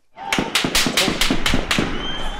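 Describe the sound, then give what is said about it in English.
Gunshots fired near ruling-party offices during opposition protests in Harare: a rapid run of about seven sharp, loud cracks at an even pace, fading into a lingering echo. “So bullets of some kind have been fired right near the ZANU-PF offices.”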